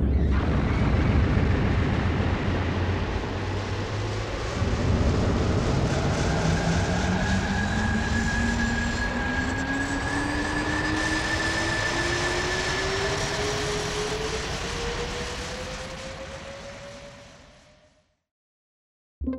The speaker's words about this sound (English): A blast off.